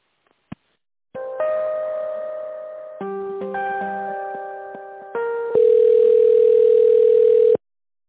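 Telephone line tones play while a call is transferred. After a sharp click, steady electronic tones shift pitch in several stepped stages and end with a long, louder single tone that cuts off abruptly.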